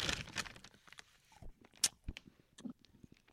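Crunching and chewing of someone eating a scone for ASMR, heard as a quiet, irregular series of soft bites, crumbly crackles and small mouth clicks, with no talking.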